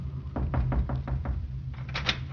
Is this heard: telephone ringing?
no